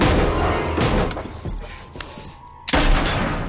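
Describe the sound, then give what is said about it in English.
A gunshot blasts the bolt off a hatch cover. Sharp bursts cut through dense, loud rumbling noise, and the hardest crack comes near the end after a brief lull. “shoots the bolt off the hatch cover.”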